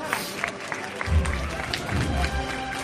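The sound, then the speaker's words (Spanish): A neighbourhood crowd applauds a Good Friday procession with steady, dense clapping and a murmur of crowd noise. A low rumble swells beneath it partway through. “El barrio respondiendo de esta forma con aplausos.”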